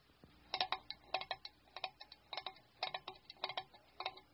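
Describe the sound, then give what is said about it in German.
A clock ticks in a regular rhythm: clusters of sharp, light clicks repeat at an even pace of roughly two per second, faint but distinct, with no voices. “Das ist Ottos Uhr.”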